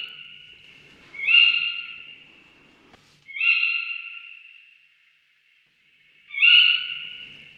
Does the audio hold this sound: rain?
no